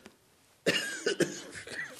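Dry coughing from a pastor whose throat has dried out while preaching: after a quiet start, a few rough, harsh cough bursts come close together, followed by raspy throat-clearing noise.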